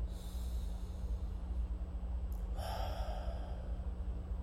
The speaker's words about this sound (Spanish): Respira profundamente, solamente una vez.